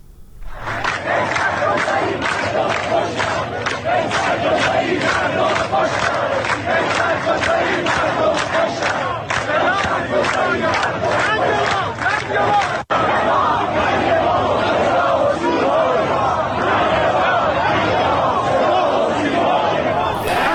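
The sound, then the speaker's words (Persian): A protest crowd in Iran chants slogans against the state broadcaster and the police. Many voices shout together in a loud, steady, rhythmic chant that goes on for the whole clip without a break. “منتها شعارهای دیگری که اونجا مردم سر میدادن رو هم صداش رو بشنویم.”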